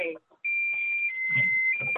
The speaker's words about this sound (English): Apologies, I just hit a button here. Alarm, reset.